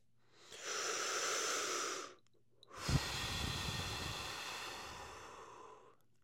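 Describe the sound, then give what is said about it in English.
A slow, deep breath: a long airy inhale of about a second and a half, a short pause, then a longer, steady exhale that gradually fades out. “Now I want you to take one more deep breath.”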